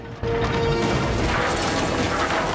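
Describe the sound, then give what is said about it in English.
A tank smashing through the front wall of a bank: a loud, sustained crashing roar of breaking masonry and grinding metal that bursts in abruptly after a brief softer moment and stays dense throughout. “Trundles on and smashes through the front of the Bank of England.”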